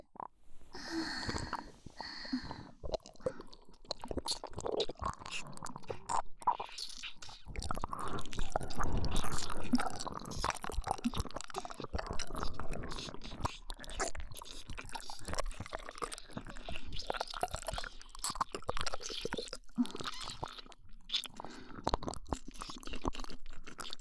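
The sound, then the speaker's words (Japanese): Wet mouth sounds of chewing, smacking and crunching run almost continuously, close and fairly quiet. The soft squishy bites and slurps come in irregular bursts throughout, with no talking. “密着しながら私たちに食べさせてください。もう我慢できませんから、いただきますね。”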